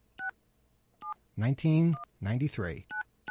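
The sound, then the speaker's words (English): Telephone keypad dialing tones from a desk phone on an office system: five short, clear two-tone beeps spaced irregularly, with a voice talking between them as 9 is dialed for an outside line and then a toll-free number. “We have to dial 9 to get out. All right. And then we dial 1-855.”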